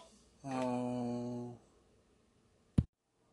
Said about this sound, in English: Sorry about the phone ring there, guys. Yeah, that was. Right next to the microphone, too, so that's probably really loud.